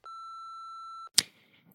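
An answering machine beep: a single steady, high electronic tone lasting about one second, followed by a sharp click and a brief faint rustle.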